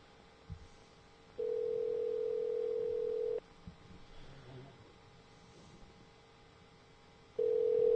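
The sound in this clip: An outgoing Skype call rings with a steady, low electronic tone lasting about two seconds. After a stretch of quiet background noise and faint voices, the ring tone starts again near the end.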